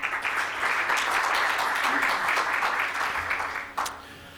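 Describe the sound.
Audience applause welcoming a speaker at a workshop: a dense, even patter of many hands clapping that holds steady, then thins and fades near the end.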